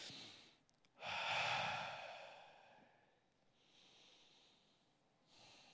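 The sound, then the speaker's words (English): Slow, deep, airy breaths taken while sitting during a guided prayer: one strong, drawn-out breath followed by softer, quieter breathing, with no talking. “Get comfortable where you're sitting. And just breathe. Allow your body to be involved in prayer. Take two deep breaths.”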